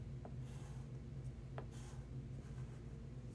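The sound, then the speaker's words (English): Chalk scratches on a chalkboard while the letters MU are written: a few faint, short, scratchy strokes over a low steady hum. “on my chalkboard here I'm just writing MU.”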